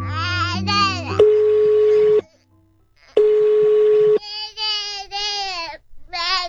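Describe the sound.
Telephone tones as a call is placed at home: two long, steady electronic beeps, each about a second, separated by a brief silence, with a young child's wailing voice before, between and after.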